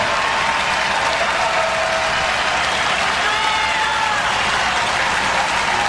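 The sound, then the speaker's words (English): Applause from a baseball crowd after a pitching performance, a steady, even patter of clapping that holds without breaks from start to end. “Well, you'd have to say he deserves a louder ovation and more fans than that for this effort”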